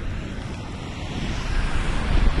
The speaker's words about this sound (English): windy, windy, windy.